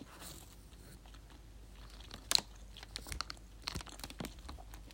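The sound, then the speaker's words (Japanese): Chewing on crab-shaped bread, soft crunching and biting noises with scattered small clicks, faint and irregular, with no talking. “カニパン食べてみました”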